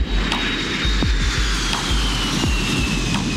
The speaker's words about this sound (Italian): È la prima volta che prende l'aereo.